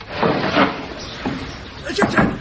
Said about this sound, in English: Open the door